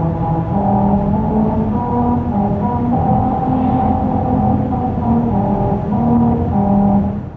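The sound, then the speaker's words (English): A car drives over grooves cut into highway pavement on a musical road in Lancaster, California, made for a Honda promotion to play the William Tell Overture. It gives a loud droning hum whose tones shift in steps over steady tire and engine noise. “That's the sound of a musical stretch of highway in Lancaster, California. As part of a promotion for Honda, special grooves were cut into the pavement that cause these notes to ring out as you drive over them.”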